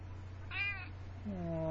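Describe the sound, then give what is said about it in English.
Two faint meows from a stray cat with apparent ear mites: a short, high first call, then after a pause a longer, lower second meow that runs to the end, over a low steady hum. “Oh, the Squiffy Kitty is back.”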